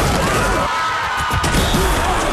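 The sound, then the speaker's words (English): A car crash sound effect: loud, dense crunching and smashing noise that fills the whole clip, with no clearly separate impacts. “Big crashes have big impacts.”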